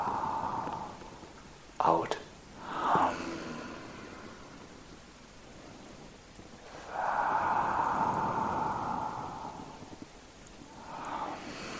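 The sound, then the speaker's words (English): A deep inhale through the nose during a guided breathing exercise: a long, steady, breathy hiss lasting a few seconds, with a couple of short sniffs earlier. “Let us all take a deep breath now in. And now, and an inhale,”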